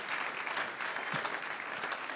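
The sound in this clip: Congregation applause during a church sermon given in English with French interpretation, a steady, fairly soft wash of many hands clapping that carries on without a break.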